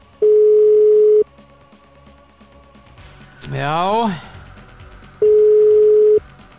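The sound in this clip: Telephone line tones on a call-in line: two long, steady mid-pitched beeps separated by a gap, with a loud warbling tone sweeping up and down between them.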